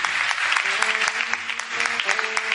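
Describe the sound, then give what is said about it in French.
Worshippers at a Christian service applaud to acclaim God. Many hands clap in a dense, steady wash, with voices mingled in beneath the clapping. “Nous voulons acclamer notre Seigneur et notre Dieu.”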